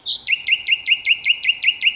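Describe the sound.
A nightingale sings a rapid, steady run of many identical high, sweeping chirps that repeat in an even rhythm, clear and fairly loud with no voices over it.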